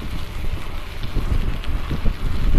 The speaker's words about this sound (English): Oh, yeah, I should have had my earmuffs on. I forget about the wind